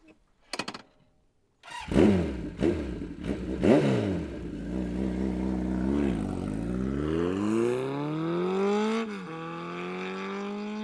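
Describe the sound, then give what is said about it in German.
A Ferrari accelerates away fast. After a few sharp throttle blips, the engine pulls hard and its loud note climbs steadily in pitch, then eases off near the end. “Ein Ferrari, der gerade ganz schön schnell wegfährt.”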